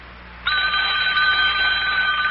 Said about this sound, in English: Oh, telephone's ringing.